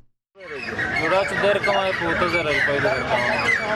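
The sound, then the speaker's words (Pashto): Poultry clucking at a Friday bird market in Khost: a dense, continuous chorus of chickens and other fowl that starts abruptly and stays loud throughout. “دا په خوست ښار کې د مرغانو د خرڅلاو مارکیټ دی. د هر جمعې په ورځ له غرمې مخکې د غلطه د مرغانو د خرڅلاو میله لګیږي.”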